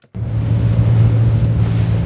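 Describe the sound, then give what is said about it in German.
A Ukrainian naval unit's small boat runs on the Black Sea near the coast of Odessa, its engine giving a steady low hum with rushing water and wind, starting abruptly and holding constant. “Die fünf Männer sind auf einem kleinen Boot in der Nähe der Küste von Odessa unterwegs.”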